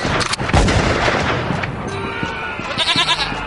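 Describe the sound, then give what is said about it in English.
A single sharp, loud gunshot bang cracks early on, followed by a dense, noisy rumble that slowly fades, with a few fainter knocks after it. “Why did you shoot him?”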